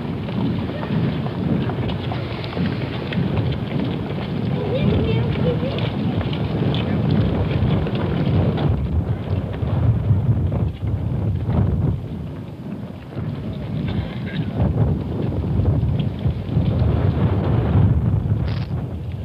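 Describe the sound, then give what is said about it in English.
A cold wind whips down an avenue during a funeral procession with horses, making a continuous, loud, rushing roar that swells and dips only slightly. “Chill wind whipping down the avenue.”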